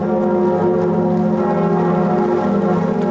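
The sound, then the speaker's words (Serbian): Cathedral church bells ring in Paris, a loud, dense and sustained wash of layered metallic tones that blend continuously, with no separate strikes standing out. “Zvuk zvona na katedrali Notre Dame u Parizu narednih godina neće se čuti”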